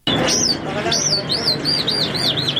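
Many small caged birds chirp at a bird seller's shop in Kandahar, a dense, steady chorus of rapid, high, repeated tweets and calls.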